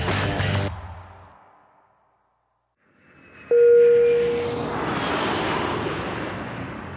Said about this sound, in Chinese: 我们现在降落在 BKK 机场，没错，这集呢是在泰国录的。